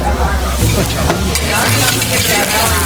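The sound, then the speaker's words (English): Garlic and shallots sauté in hot extra virgin olive oil on a waiter's tableside cart, making a loud, continuous sizzle with stirring and scraping sounds mixed through it. “Saute that so it gets nice and brown. Right away you're gonna smell that deliciousness from that cooking.”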